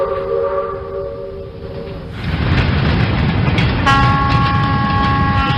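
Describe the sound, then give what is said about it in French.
A Turkish long-distance express train from Ankara gives a loud, rolling rumble. A sustained horn tone opens and fades, the rumble swells, and a second horn tone enters and holds to the end. “Quitter la gare d'Ankara en Turquie pour se retrouver 24 heures plus tard à la frontière arménienne à l'est, voilà ce que permet le Doğu Ekspresi, le petit Orient Express turc.”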